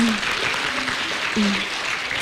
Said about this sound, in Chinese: 好，最后让我们也再次用热烈的掌声感谢牛主任为我们带来的精彩演讲，谢谢。